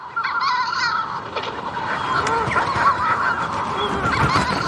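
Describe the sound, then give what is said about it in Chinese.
Manx shearwaters call at a breeding colony on Skellig Michael island in a loud, dense chorus of harsh, cackling and crowing cries. The calls overlap without pause over a constant rough background. “其实这是一种鸟类的叫声，它们从南大洋和巴西远道而来，到斯凯利格迈克尔岛繁殖育雏。这就是大西洋鹱。”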